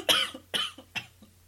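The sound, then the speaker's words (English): A person coughs three times in sharp, harsh bursts, each trailing off quickly, followed by a much fainter fourth cough, with no other sounds. “A cough, apparently.”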